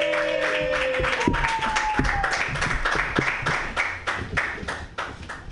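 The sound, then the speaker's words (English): Audience applause for a comedian at a comedy show: many dense, steady claps blend into a sustained, crackling roar, with brief vocal cheering mixed in. “Put your hands together. Yeah. For Murat Chaki. Yay!”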